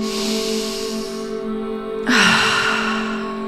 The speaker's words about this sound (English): So a nice deep inhale through the nose, out the mouth, and again,